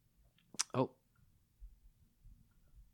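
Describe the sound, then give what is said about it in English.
A single sharp, quiet computer mouse click, followed by a brief voice and faint low rustles in otherwise near-silence. “I clicked on it. And we don't get to see it. And it went away.”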